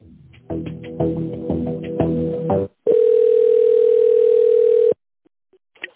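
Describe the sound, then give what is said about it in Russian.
A steady telephone line tone plays while a call is being transferred, holding one pitch for about two seconds at a loud level before cutting off abruptly. “Минуту, я сейчас соединю вас с юристом Ольгой Юрьевной”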